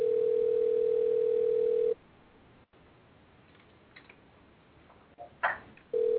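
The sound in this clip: A telephone dial tone sounds as a call is placed: a steady, low-pitched hum that holds for about two seconds, then cuts to quiet line hiss with faint clicks and returns at the end.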